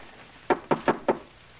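Knocking on a door along a hallway: four sharp, evenly spaced raps in a quick row, loud against a quiet background, with silence before and after.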